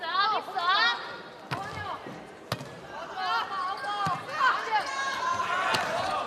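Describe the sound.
Sharp ball strikes during a school volleyball match, including a serve: four hard smacks spaced over several seconds, set against ongoing crowd noise and voices.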